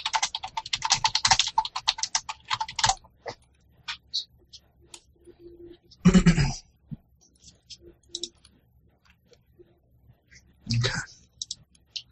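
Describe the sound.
Computer keyboard typing during a web search starts as a rapid, dense run of clicks for the first few seconds. It then thins to scattered single key taps broken by a couple of short, louder bursts.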